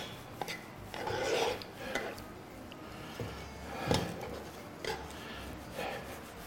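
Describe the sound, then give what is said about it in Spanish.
An onion is pressed down with a utensil in a hot pan, giving a few faint scraping and rubbing strokes with soft knocks between them, low in level and spread unevenly. “Estoy como aplastando un poquito la cebolla, ¿eh? Es que me quemo. Aplastando un poquito así la cebolla.”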